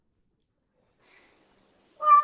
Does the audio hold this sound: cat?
yes